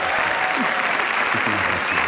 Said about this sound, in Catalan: Ho fa l'aplaudiment pel Marc Giró.